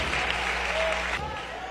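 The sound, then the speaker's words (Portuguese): A church audience applauds to praise the Lord, a steady, even wash of clapping with a voice heard under it throughout. “Pode louvar ao Senhor outra vez, com glórias e palmas.”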